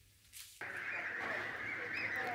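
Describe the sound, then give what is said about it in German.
Geese honking in a goose barn, a dense continuous chorus of nasal calls that starts abruptly after a faint opening and stays busy and fairly loud throughout, with no talk. “Halligalli im Gänsestall.”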